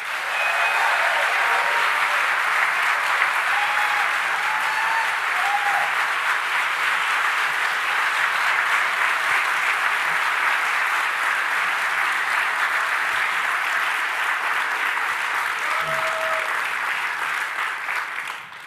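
Sustained audience applause at a church service welcoming Pastor Voddie Baucham; dense, loud, steady clapping carries on without a break for the whole stretch and tapers slightly at the very end.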